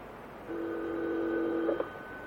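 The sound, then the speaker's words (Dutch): Telephone line tone while a call is being dialed: a steady, two-pitched electronic tone holds for just over a second, then ends with a couple of short blips, with no talk over it. “We bellen Jim. Laten we hopen dat hij wakker is.”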